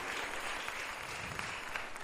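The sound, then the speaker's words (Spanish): Church audience applauding during a Spanish-language sermon: a faint, steady patter of many hands clapping together, evenly sustained and dense, with a few sharper claps standing out near the end. “¿Por qué no le damos un aplauso a nuestro Dios?”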